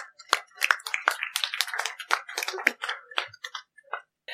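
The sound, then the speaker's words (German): An audience performs a "toast applause" clapping game to greet a guest, producing scattered, fairly faint, sharp claps in an irregular rhythm that thin out toward the end. “Begrüßt mit einem Toastapplaus Heike!”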